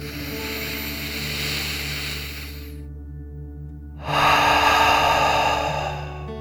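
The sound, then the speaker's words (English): A deep breath in and out during a slow relaxation exercise, heard as a long airy breath, a short pause, then a louder, fuller breath that fades away. “Let's take another deep dragon breath in and out.”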